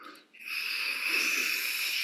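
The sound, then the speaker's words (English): A human breath drawn inward through a 'sha' shape with saliva, a sustained wet, hissing inhale that follows a brief pause and holds steady and fairly loud to the end. “So it's just a sha sound that you bring in saliva with.”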